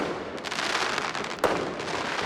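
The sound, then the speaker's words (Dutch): Fireworks exploding on New Year's night in Utrecht, a dense, continuous crackle of bursts with one sharper bang standing out near the middle. “Verslaggever Onno Beukers tussen het vuurwerk afgelopen nacht”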